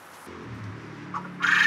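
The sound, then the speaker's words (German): Quails cluck softly in a brief, low, muted burst of fowl calls, followed by a short rush of hissing noise at the end. “Also unsere Wachteln legen am liebsten gern Nachmittag.”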